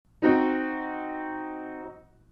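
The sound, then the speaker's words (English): A diminished triad sounded as one harmonic chord, all three notes struck together and held for under two seconds before fading out cleanly. “First, we have the diminished triad. It sounds like this.”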